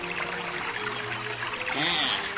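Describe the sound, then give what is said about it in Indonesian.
Water pours steadily from a spout near a hut, a continuous rushing splash that holds an even level and swells slightly toward the end. “Sementara itu di sebuah pancuran yang tidak jauh dari pondok itu.”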